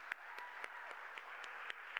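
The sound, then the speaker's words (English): Church audience applauding the fathers and grandfathers on Father's Day. The clapping is a faint, steady patter with a few sharper claps standing out. “Okay, I want an applause for all the dads here, the grandpas. Let's give them.”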